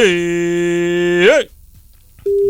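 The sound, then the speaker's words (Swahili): Phone call tone after a USSD code is dialed on a mobile phone: a long, buzzy, steady tone that wavers and cuts off, a short near-silence, then a clean, steady beep that starts and holds. “Piga simu baba, nafasi kama ipo. Unapiga mbili kwa mkupuo moja. Simu ya kwako pale kwenye dial pad, piga *216# *216#.”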